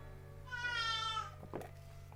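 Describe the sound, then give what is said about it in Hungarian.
A hungry cat gives a single drawn-out, high, plaintive meow, fairly faint over a steady low hum, followed by a couple of brief soft clicks. “Remélem halljátok, hogy milyen elkeseredett hangon nyávok szerencsétlen állat, aki már legalább 2 órája nem kapott enni”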